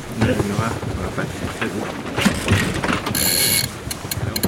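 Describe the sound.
A sailboat winch ratchets as the foresail is hoisted, giving a rapid mechanical clicking and clatter over gusting wind noise, with a bright hissing burst near the end.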